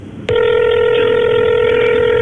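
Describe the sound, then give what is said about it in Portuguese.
A telephone starts ringing with an abrupt, loud, steady electronic tone that holds unbroken to the end. “E o telefone começa a tocar, tem 5 toques para atender.”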